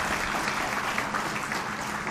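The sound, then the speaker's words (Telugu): Sustained audience applause after a recitation of Telugu verse by the poet Potana: a dense, even patter of many hands clapping that holds steady throughout without a break. “ఇప్పుడు దీనికి అర్థం చెప్పకపోతే ఎందుకు చప్పట్లు కొట్టారో తెలియదు. ఇంతకీ ఎందుకు చప్పట్లు కొట్టారు?”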